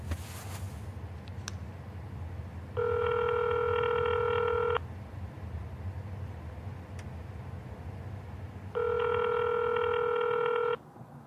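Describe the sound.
Telephone dialing tones as a call is placed: two long, steady electronic beeps, each about two seconds long and separated by a pause, over a constant low rumble.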